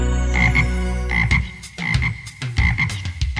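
Frog croaks over a children's song, a few short rasping bursts breaking through sustained, bright musical tones.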